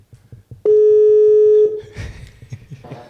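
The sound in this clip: A phone call ringing while waiting for an answer: one long, steady electronic ring tone lasting about a second, with soft thumps and rustling around it.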